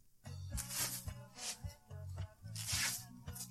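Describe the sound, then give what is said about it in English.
Adhesive tape being pulled off and stuck onto a person's chest: several short, rasping tearing strips alternate with pauses, quiet and close, with no voices. “That's Christina Ricci taping her tits.”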